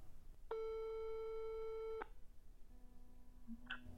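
A telephone busy tone after a call cuts off: one long, steady, faint beep, followed by a low hum and a brief tone.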